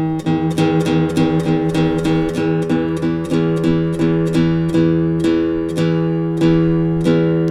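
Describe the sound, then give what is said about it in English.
A 12-string guitar string is plucked again and again while being tuned to pitch, each note bright and ringing with octave overtones. The plucks come in a steady, fairly quick rhythm, alone and with no talking. “you're going to hear the volume come up as I reach the optimum tuning, so let's flat it a little bit.”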